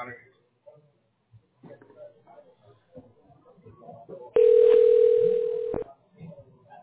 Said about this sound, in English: Just bear with me for a moment. You'll hear me dialing.